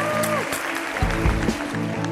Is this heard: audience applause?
yes